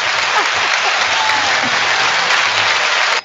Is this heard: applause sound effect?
yes